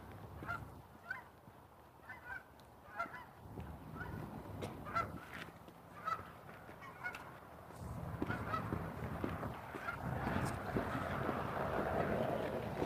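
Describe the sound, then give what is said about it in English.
Geese honk repeatedly in irregular bursts at moderate loudness, with many calls overlapping against a noisy background and no talking. “Oh, geese.”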